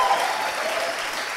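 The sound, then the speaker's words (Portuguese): Applause from an audience: dense, steady clapping at an even loudness throughout, with no pause. “Salva de palmas para vocês.”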